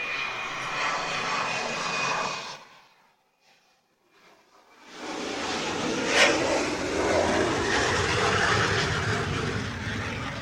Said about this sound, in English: But for those wondering, that was a T-38